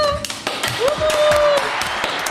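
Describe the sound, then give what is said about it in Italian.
Clapping for a show's technician comes as a short burst of brisk, crisp claps, with a voice sounding through it. “Il nostro tecnico Pietro. Un applauso.”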